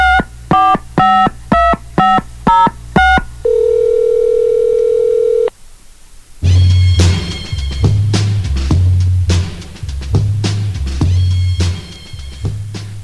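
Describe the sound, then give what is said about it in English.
Telephone keypad dialing tones on a voicemail message line: a quick series of short, evenly spaced beeps, then one steady tone held for about two seconds, followed by louder tonal sounds. “let's go straight to the chump line, the voicemail message service of the Howie Carr Show.”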